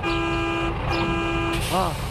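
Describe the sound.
A pickup truck sounds its horn on arrival in two sustained, steady blasts with a short break between them, followed by a brief voice.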